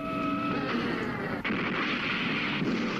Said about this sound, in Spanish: Dispara un proyectil.